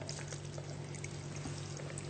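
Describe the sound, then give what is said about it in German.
Water pouring into a blender holding mango for a mango purée: a faint, steady, even rush of liquid with no breaks over a low hum. “Und genau, dann vermixen wir das Ganze jetzt noch ein bisschen. Ich gebe noch ein bisschen Wasser mit zu.”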